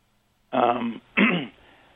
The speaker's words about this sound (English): Wait a second while I cough a minute.